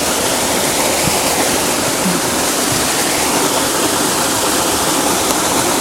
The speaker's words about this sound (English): For I have found a waterfall that I'm sure somebody has been to